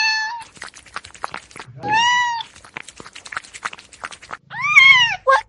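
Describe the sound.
A cat meows several times, with drawn-out, clear, fairly high calls separated by short stretches of softer clattering noise; the last meows come close together near the end.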